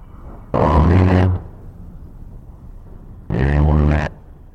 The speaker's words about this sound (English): It's the sound of an A10 firing its Gatling gun.